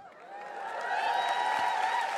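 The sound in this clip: A live audience cheers and applauds, a mix of clapping and high whooping voices that swells over the first moment and then holds at a steady, moderate level.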